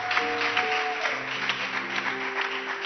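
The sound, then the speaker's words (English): A worship audience claps its hands in a dense, continuous patter that lasts throughout, over sustained musical tones. “Don't stop clapping.”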